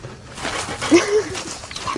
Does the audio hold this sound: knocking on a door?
no